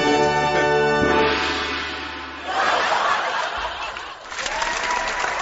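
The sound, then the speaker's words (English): A canned applause sound effect starts with a brief buzzy tone, then gives way to a steady, muffled wash of clapping and crowd noise that continues to the end. “What was that? That's the applause.”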